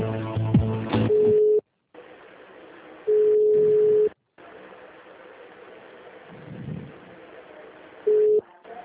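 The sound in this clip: Telephone line tones play while a call is being transferred: three steady, flat beeps at the same mid pitch, separated by gaps of faint line hiss, with a brief buzzy tone at the start and no talk.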